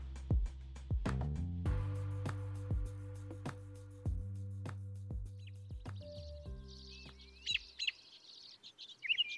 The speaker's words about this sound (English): That sound you're hearing is spring beginning. The song of the robin.